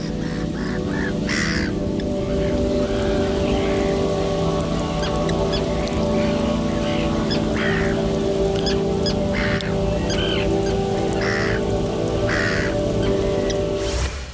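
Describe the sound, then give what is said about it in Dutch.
Gulls and other birds calling at the harbour of Terschelling, a busy overlapping mix of raucous, cawing cries scattered throughout, over a steady low droning hum. “Ja, je hoort vogels. Ja, en je hoort vogels, meeuwen. Dus het is wel echt een soort haven.”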